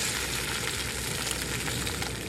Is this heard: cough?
no